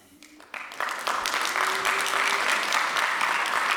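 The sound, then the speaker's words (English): Audience applause that builds quickly from a few claps into loud, sustained clapping that holds steady to the end. “that's applause for her, obviously.”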